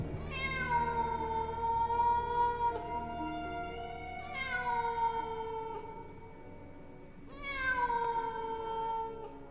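A cat meows three times, each a long, drawn-out, loud cry with strong harmonics, separated by short pauses.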